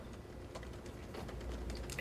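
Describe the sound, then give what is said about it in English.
Keyboard typing on a computer, faint, quick clicks of keys tapping in a loose, uneven rhythm. “So I didn't want to interrupt you while you were typing, but why don't you use voice?”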